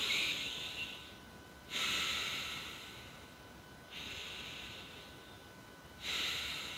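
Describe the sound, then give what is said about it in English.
Deep breaths make a steady, airy rush that swells at regular intervals, with three stronger surges about two seconds apart over a constant breathy hiss. “First of all, take 10 deep breaths.”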